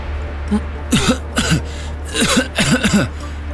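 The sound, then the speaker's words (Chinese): Harsh coughing and throat-clearing from a person who has just fallen and hurt their lower back, coming as a few short voiced bursts in two clusters over a steady low hum. “江瑶捂着摔得生疼的后腰，忍不住咳嗽着”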